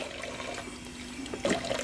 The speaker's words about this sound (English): Excuse the noise. Just rinsing off my shirt.